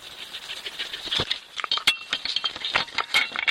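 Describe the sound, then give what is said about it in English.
A wolf sniffs and snuffles at a trail camera set on heathland. Many irregular short bursts of close, rattly, breathy noise follow one another with no voices. “That sound you can hear is a wolf sniffing a camera on a stretch of heathland, planted to track Belgium's emerging wolf population.”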